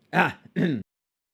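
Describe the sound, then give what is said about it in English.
Throat clearing into a microphone: two loud, rough voiced bursts in quick succession, the second slightly shorter, followed by silence. “as I clear my fucking throat into the microphone and your ears”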